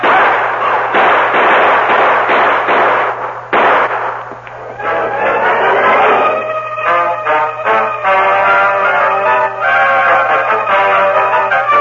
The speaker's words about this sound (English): Is the man shooting? Open up, boys. We'll shoot our way out.